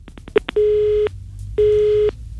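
Telephone busy tone after the other side hung up: a few quick clicks, then two loud, steady buzzing tones of about half a second each with a short gap between, with nothing else over them.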